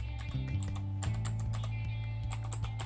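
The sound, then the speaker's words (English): A password is typed on a computer keyboard as many quick, light key clicks patter unevenly over a steady low hum. “So it'll say package catch here and select all and type in my password.”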